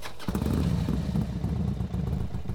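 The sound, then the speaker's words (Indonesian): A motorcycle engine starts abruptly after a brief quiet moment and settles into a steady, loud, low rumble as it pulls away. “laki-laki itu melengos dan menyalakan motornya, kemudian pergi.”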